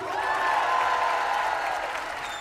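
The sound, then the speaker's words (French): An audience applauds and cheers for a singer at a live concert, a dense, steady wash of clapping that eases slightly toward the end. “Et maintenant, je voudrais que vous fassiez encore plus de bruit, s'il vous plaît, pour Iba Tawaji.”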